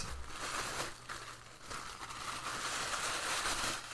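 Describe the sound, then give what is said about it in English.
Wrapping paper crinkles and rustles as a book-shaped holiday gift is unwrapped, a steady, busy crackling that fills the whole clip with no talk. “I'm now holding another piece of something wrapped. I'm unwrapping it.”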